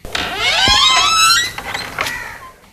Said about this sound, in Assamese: চাওঁ, দুৱাৰখন খুলি দিওঁ।